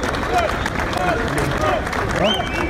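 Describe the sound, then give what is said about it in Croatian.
More than a thousand locals in the centre of Bujanovac, holding Albanian flags, welcome a visitor with applause and ovations. Clapping mixes with cheering, whistling voices and crowd chatter at a steady, lively level. “Dočekan je ovacijama i aplauzom.”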